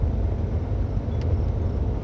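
Steady low rumble of a car driving along a street: a continuous engine and road drone at an even level, with no voices.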